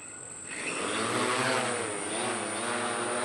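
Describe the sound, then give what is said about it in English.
Steady propeller whine of a 10-pound quadcopter drone taking off in heavy wind, swelling loudly after a brief quieter start, then holding a constant buzzing hum with layered tonal bands over broad wind-like noise. “His workhorse is a 10-pound quadcopter, smaller than a sombrero. I will let you know that we're flying in a pretty heavy wind, so I am going to be a little extra careful taking off here.”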